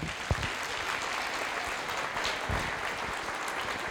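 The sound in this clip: Audience applause welcoming a speaker at a public lecture on cities, a steady, dense wash of many clapping hands that holds at an even level for about four seconds.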